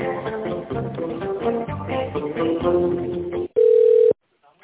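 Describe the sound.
A brief steady telephone tone marks a call being transferred. The mid-pitched beep lasts about half a second near the end and follows a busier stretch of line audio.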